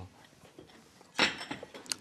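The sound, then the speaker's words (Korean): A large cooking pot set down, one sharp metallic clank followed by a few faint clinks and rattles in an otherwise quiet moment. “오늘은 제가 조금 큰 이런 냄비를 가져왔습니다.”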